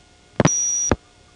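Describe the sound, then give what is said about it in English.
Automatic number identification B signalling tones in a step-by-step telephone office: a couple of sharp clicks, then a steady, piercing high tone lasting about half a second, cut off by another click. “That is the sound of the automatic number identification B system, which has its famous 5800 Hz tone, and was mostly used on step offices”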